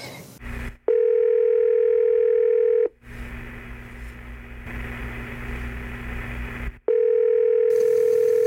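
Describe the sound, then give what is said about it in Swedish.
A telephone line tone sounds while a call is placed: a loud, steady electronic tone holds for about two seconds, gives way to several seconds of hissing line noise, then returns just as steady. “Ska vi testa ringa upp den gode Johansson? Se vad han har för sig. Vi slår en pling här i live.”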